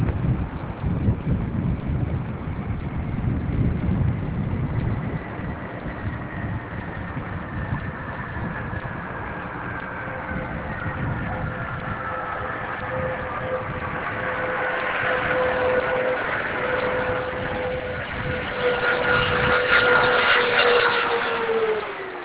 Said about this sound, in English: Atlantis rolling out on runway 33 at the Kennedy Space Center, wrapping up a 4.5 million mile mission to continue the expansion of the International Space Station.